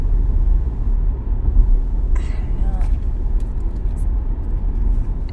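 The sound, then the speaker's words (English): Steady low road rumble from a car driving toward Évora, Portugal, on a sunny day, with a brief faint voice sound partway through. “And we're driving back to Évora now, and the sun is shining.”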